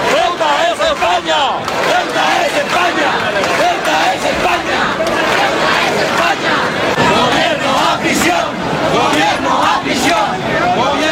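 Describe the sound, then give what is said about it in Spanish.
About 7,500 people chant at a rally in Elche's Plaza de Valls in support of Ceuta. Loud, continuous massed voices rise and fall in repeated shouted phrases. “Ahí lo escuchan alrededor de 7.500 personas. Según datos de la policía local, se concentraban ayer en la Plaza de Valls de Elche en apoyo a Ceuta dentro de la convocatoria de la Federación Española de Municipios y Provincias.”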